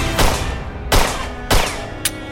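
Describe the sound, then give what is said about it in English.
Gunfire in a fight, aimed at someone sheltering behind a metal beam: four sharp, loud cracks at irregular intervals over a steady noisy background. “Ken-dolll fires at Tyler, but the metal beam covers him too well.”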